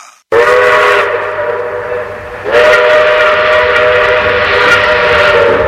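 A steam train's whistle sounds in a loud, sustained, steady harmonic tone, swelling with a fresh, brighter blast midway and holding to the end.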